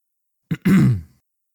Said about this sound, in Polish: Chrząknięcie.